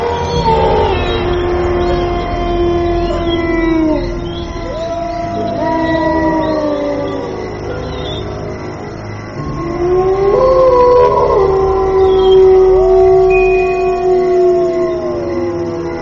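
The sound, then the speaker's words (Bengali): Wolf howls at the moon in a sound effect: several long, overlapping, loud howls glide up and down in pitch, one after another, with no talk. “হঠাৎ চাঁদের দিকে মুখ ফিরিয়ে এক অমানুষিক চিৎকার করল নেকড়েটা”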